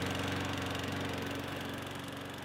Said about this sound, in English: Well, I gotta mow the lawn